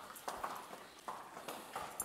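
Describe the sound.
A horse's hooves clip-clop at a walk as it is led toward a trailer: several crisp, evenly spaced knocks in a steady rhythm, faint and without talking.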